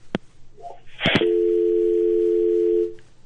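A telephone dial tone after a call is cut off: a few sharp clicks, then a steady, unbroken electronic tone that holds one pitch for about a second and a half before stopping.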